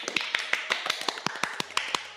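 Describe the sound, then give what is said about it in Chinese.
Hand clapping from a small group at a friendly get-together over tea and a meal, with many crisp, evenly spaced claps in a steady fast rhythm, fairly quiet. “哎呀，掌声感谢！”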